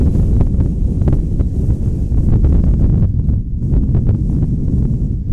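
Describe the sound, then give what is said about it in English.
Strong wind blowing across the microphone at an outdoor softball game, a continuous loud, rough rumble with gusty surges and no voices. “The wind is blowing harder now than it has all day, and it's been blowing hard all day.”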